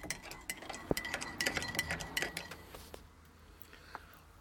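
A spoon clinks and stirs in a cup for a cuppa: many quick, faint metallic taps and scrapes in a busy cluster for about three seconds, then a quieter stretch with one last isolated clink.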